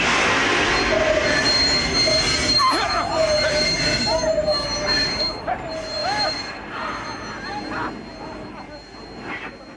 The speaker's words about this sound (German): Sobald ich jetzt sage, in dem Augenblick, ziehen Sie die Notbremse.